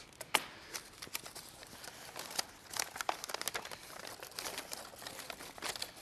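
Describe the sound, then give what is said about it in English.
Scissors cut a straight line through a folded paper picture: a run of many sharp, crisp snips and crinkles, irregular in rhythm and moderately loud, with no voices. “This is very hard to fold. It was an MIT Spotlight picture at some point. And it's even harder to cut. Straight cut.”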